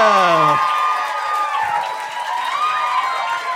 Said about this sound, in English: Could you please put those hands together and welcome to the stage